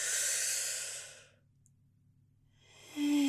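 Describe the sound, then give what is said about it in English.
A deep breath drawn in through the nose makes a soft, airy hiss that fades to near silence. Another breath sound swells up at the very end. “Let's inhale through the nose.”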